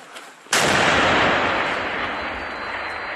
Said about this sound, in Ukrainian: Бійці наводяться, дають команду «постріл».